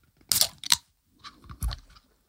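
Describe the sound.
A Red Bull energy drink can is opened, with a sharp crack and a hissing burst followed by a softer second burst of fizzing and fiddling noise.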